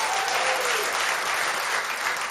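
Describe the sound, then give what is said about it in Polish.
Audience applause for a rock band's members at a Polish radio event, a steady, dense wash of clapping that holds at an even level for the whole short stretch. “No i jeszcze Jarosław Sawic, który nie jest członkiem tej grupy, ale wielkie brawa.”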